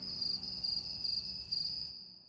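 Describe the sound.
Crickets chirping in a high, thin, steadily pulsing trill that runs for about two seconds, then cuts off abruptly.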